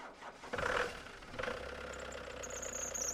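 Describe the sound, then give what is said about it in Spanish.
Old 1960s Ford pickup truck engine running, a loud, rough, low rumble that swells after a brief moment and then holds steady and constant throughout, with no voices. “El sonido fuerte de un viejo motor me despertó.”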